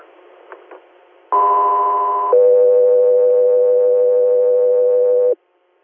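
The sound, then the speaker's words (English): Radio dispatch alert tones paging an air medical crew: a loud steady higher tone of about one second gives way to a longer, lower sustained tone of about three seconds. Faint static and a couple of soft clicks come before. “stand by for tones.”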